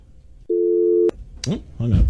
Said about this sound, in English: Our last caller hung up. Yeah, just click dial tone.